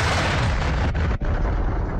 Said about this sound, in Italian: Ecco il suono delle bombe russe sul teatro di Mariupol, pieno di famiglie.